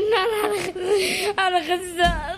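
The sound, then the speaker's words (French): A young girl in pain and still under treatment bursts into sobs: high, wavering, tearful whimpers that rise and break in uneven bursts, loud and close, with brief catches of breath between cries. “La fillette éclate en sanglots.”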